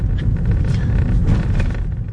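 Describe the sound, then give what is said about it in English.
Steady low rumble of a car driving along a quiet street, an even engine and road drone with no voices. “I'm driving with Alejandra to the house now. As we arrive in the quiet street”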